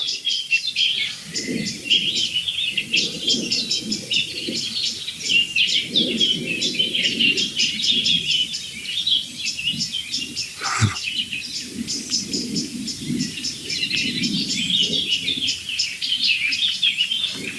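Excited birds, mostly blackbirds and song thrushes, call in dense vegetation. The chirps and tweets are loud and continuous, with many overlapping calls and no pause.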